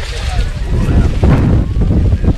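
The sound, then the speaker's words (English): Strong wind at a cold, rainy outdoor football game, a loud, continuous low roar buffeting the microphone with rumbling gusts that swell slightly midway. “And the wind has picked up. It's now carrying away our canopy.”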